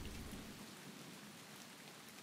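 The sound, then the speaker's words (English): Rain falls during a storm as a steady, even hiss of drops on a surface, soft and constant throughout, with a little more low rumble at the start. “I'm hoping the storm blows over fast so I could get the F out of here.”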